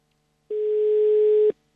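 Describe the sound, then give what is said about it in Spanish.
Single telephone line tone while a call is being placed, one steady, clean mid-pitched beep lasting about a second, starting and stopping abruptly, with silence before and after. “Estamos llamando a Tato Falcón.”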